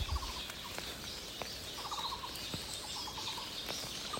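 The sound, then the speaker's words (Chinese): Various birds call from trees in a bird park along a trail in Jiaoxi. Faint, rapid, stuttering trills repeat among soft scattered chirps. “真有趣哈！各种鸟声啊。这是一个鸟园啊！”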